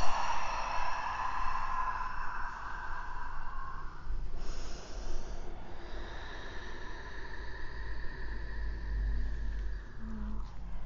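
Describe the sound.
Slow, drawn-out breathing out during a yoga session, a soft breathy rush that holds fairly steady in loudness over a continuous tonal background.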